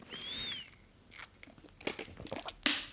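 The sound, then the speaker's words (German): Soft slurping and swallowing come from someone taking a quick sip of a drink, faint wet mouth sounds ending in a sharper click. “So, ich muss nur kurz einen Schluck trinken, weil ich immer noch nicht wieder fit bin.”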